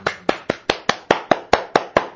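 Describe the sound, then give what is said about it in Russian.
Crisp, evenly spaced hand claps in a brisk, regular rhythm, each one sharp and loud with a short decay and nothing else heard between them. “Бурные аплодисменты. Вот это мне нравится.”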